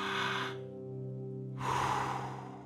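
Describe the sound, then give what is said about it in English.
Slow deep breathing: one long, airy inhale, a pause, then a long, loud exhale, all over a faint, steady low hum. “So let's take a couple of deep breaths.”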